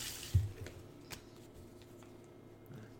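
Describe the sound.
Faint shuffling of playing cards at a card table during a game, a few soft clicks and papery rustles over a low background hum.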